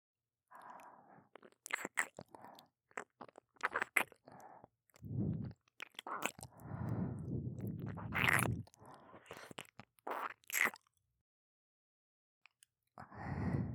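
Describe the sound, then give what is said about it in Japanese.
Wet ear-licking mouth sounds, close smacks and slurps in uneven bursts with soft breaths between, fairly quiet and without talk, pausing near the end before the licking resumes. “では、耳舐めの方、させていただきますね。”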